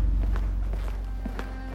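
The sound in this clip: Footsteps of men walking down a hospital hallway fall in a steady rhythm: several soft, dull steps in loose pairs over a low background rumble.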